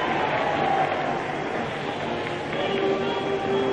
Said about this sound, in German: Jetzt begrüßt er den Führer. Begeisterte Heilrufe.